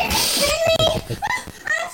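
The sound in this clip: A young child having a tantrum, with high, strained wails and fussy vocal outbursts that come in loud, uneven bursts.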